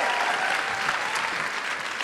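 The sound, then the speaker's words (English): Audience applause at a live show: steady, dense clapping from many hands, fairly loud and sustained for about two seconds without pauses. “Big round of applause for Sook.”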